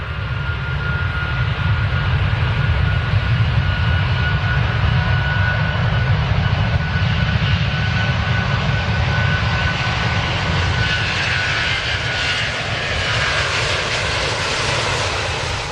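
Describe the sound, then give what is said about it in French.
Engines of an Airbus A350-900 airliner in flight, a loud, unbroken roar of low rumble and airy hiss that holds steady throughout, with no change in pitch. “Mais là, je vais vous parler du A350-900 de la compagnie d'Airbus.”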